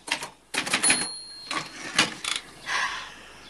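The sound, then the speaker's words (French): A woman types on a typewriter in a film scene: short bursts of rapid mechanical clacking come in several irregular runs, separated by brief pauses. “Une femme de dos, les épaules nues, tape à la machine.”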